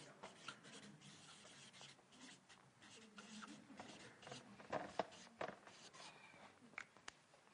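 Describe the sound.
Faint, irregular scratching strokes of someone writing on a board during a German talk, broken by short pauses. A few sharper squeaky strokes stand out near the middle and end.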